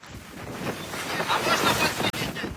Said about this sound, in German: Die See ist stürmisch.